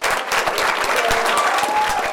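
Crowd cheering and applauding at a state board meeting as a member casts the lone no vote against proposed math and English standards, a dense, steady roar of clapping with cheers that stays loud throughout.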